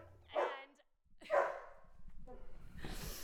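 A dog barking twice, each bark a short, resonant yelp about a second apart, followed by a rising wash of rustling background noise.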